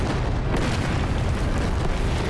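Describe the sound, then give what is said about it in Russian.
Cannon fire from a forest in a war film, heard as a dense, sustained, booming roar of low rumbling blasts that merge together without clearly separate shots, with no voices. “Выстрел пушек из-под леса.”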